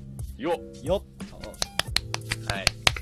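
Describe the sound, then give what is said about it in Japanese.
Sharp, scattered hand claps ring out in a quick irregular burst after people talk, the bright snaps overlapping one another toward the end. “拍手が多いですね。”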